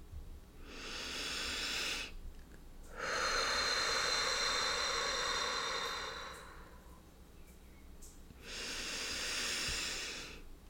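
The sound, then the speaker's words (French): Deep, slow breathing during a sophrology relaxation session: three long, airy, hissing breaths, each separated by a quiet pause. “j'effectue trois grandes et vastes respirations pour bien oxygéner tout ce que je viens de stimuler.”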